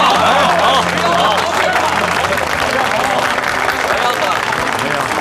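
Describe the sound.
Applause from a gathering of businessmen clapping for a boss's generous act, a loud, continuous wash of many hands with a murmur of voices mixed in.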